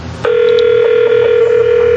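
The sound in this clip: A telephone tone sounds from a phone line, starting abruptly after a short moment of quiet and then holding loud and steady at one constant pitch.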